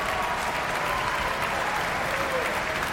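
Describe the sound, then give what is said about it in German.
Dense, continuous applause from a packed audience and the orchestra at the Prinzregententheater in Munich after a stage performance, steady clapping filling the whole clip. “Das vollbesetzte Prinzregententheater in München ist hörbar angetan. Und hier applaudiert ebenfalls das Orchester.”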